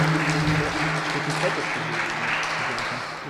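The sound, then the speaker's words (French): An audience applauds the speakers at a talk, with dense, steady clapping that carries on throughout and eases slightly toward the end. “Je crois qu'on peut réapplaudir nos intervenants.”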